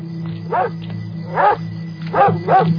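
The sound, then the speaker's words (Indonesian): A dog barks inside a house: four sharp, resonant barks, the last two close together, over a steady low hum. “Aku kaget dan melihat seekor anjing di dalam rumah yang menggonggong terus ke arahku.”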